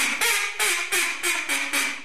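A duck call imitating duck quacks, a rapid, evenly spaced run of loud, nasal, raspy quacks, each burst following the last with only short dips in between.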